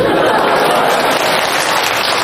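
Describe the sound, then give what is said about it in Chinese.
Audience applause at a comic crosstalk performance, a dense, continuous wash of clapping that stays loud and even throughout. “怎么又掌声了？ 哎，感谢您的掌声鼓励吧。”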